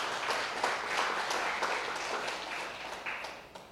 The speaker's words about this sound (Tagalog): Pwede ba palakpakan mo si Lord kasi nakain ka pa?